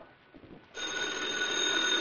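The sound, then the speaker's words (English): A telephone rings in an apartment: after a brief stretch of faint low noise, a bright, steady ringing tone starts suddenly and continues unbroken to the end. “Brett and Cato had been in the apartment but a short time when the phone rang”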